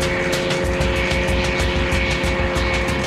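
A propeller aircraft engine roars at full power as a fragile old plane, held together by string and glue, takes off. The loud, steady drone carries a fast, even pulsing throughout.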